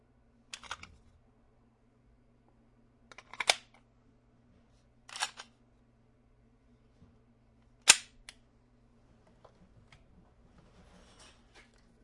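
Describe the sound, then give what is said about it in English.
Four sharp gunshots from a Smith & Wesson SD9 9mm auto-loading pistol, each a brief crack with a short tail, spaced a few seconds apart over a low steady hum. “Smith & Wesson SD9, 9mm auto-loading pistol.”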